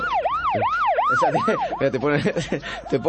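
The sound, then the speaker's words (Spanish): An emergency vehicle siren wails in rapid, repeated rising-and-falling sweeps. The sound is loud and heard alone, and the tones grow denser and overlap in the second half. “La sirena es para vos.”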